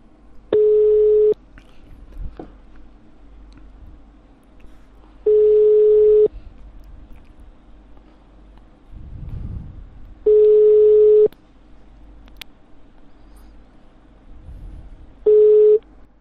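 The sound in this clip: Telephone line tones sound as the called person rejects the call: four steady one-second beeps, roughly five seconds apart, with low line noise and faint rumbles between them.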